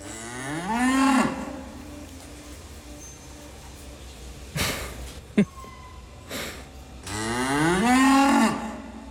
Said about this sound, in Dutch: Ja, geen dialogen dus, maar alleen geloei.